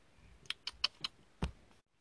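Someone types a text message on a phone: five faint, crisp taps in an uneven rhythm, followed by silence.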